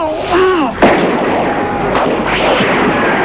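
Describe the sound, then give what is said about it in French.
Battle noise of machine-gun and flamethrower fire as soldiers land by boat: a descending whistle gives way to a sharp, loud blast and a rolling roar, with a couple of softer bursts after it. “À coups de mitraillette, de lance-flammes.”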